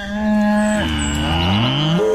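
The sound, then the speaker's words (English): A cow mooing, one long, loud, low moo that drops lower partway through and lifts again near the end. “Hey, there's a cow in here.”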